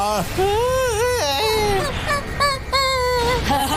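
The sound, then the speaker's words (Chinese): People crying in drawn-out, wailing sobs with voices sliding up and down in pitch, loud and continuous with short catches of breath between cries. “怎么回事儿？我们为什么会哭啊？”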